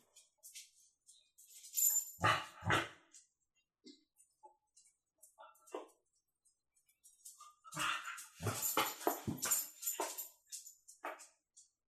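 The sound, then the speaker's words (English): A puppy whimpers in short, irregular bursts of thin whining cries with quiet gaps between them, loudest in one cluster early on and a longer stretch later. “No, just an idiot puppy.”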